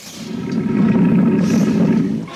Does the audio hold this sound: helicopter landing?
no